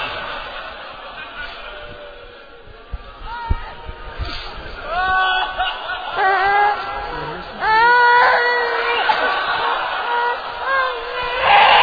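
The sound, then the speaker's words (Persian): A baby cries in a series of wailing, harmonic bursts with wavering, rising and falling pitch, growing louder and more sustained toward the end. “یه بار وقتی صدای بچه اینجا خیلی هست، بذاری خود صدای گریه بچه رو بشتیم.”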